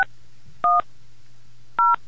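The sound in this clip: Cell phone keypad tones dialing a saved takeout restaurant number: a few short, bright dual-pitch beeps separated by pauses, over a low steady hum.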